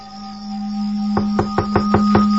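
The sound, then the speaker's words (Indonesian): Six quick, evenly spaced knocks on a bedroom door from outside, sharp and fairly loud over a steady low drone. “pintu kamarku diketuk dari luar.”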